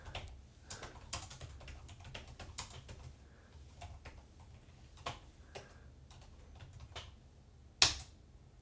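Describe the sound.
Steady typing on a computer keyboard while a feedback message is entered. The keystroke clicks are soft and rapid, and one louder clack lands near the end.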